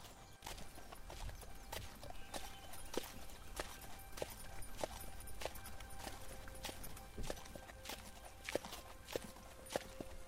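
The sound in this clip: Horse hooves clip-clop as riders travel on horseback, with many even, regularly spaced hoof strikes in a steady walking rhythm, soft and low in level throughout.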